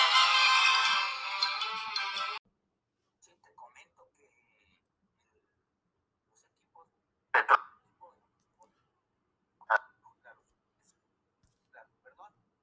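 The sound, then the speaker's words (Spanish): Phone ringtone from an incoming call plays loud and bright for about two seconds, then cuts off abruptly, followed by near silence broken by a few faint, brief clicks and short bursts. “Sí, no, te preocupes, entró una llamada.”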